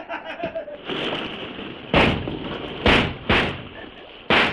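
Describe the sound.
Gunshots fired at a man jumping over the side: four sharp, loud cracks with short decays, unevenly spaced over about two and a half seconds, after a brief shouted voice.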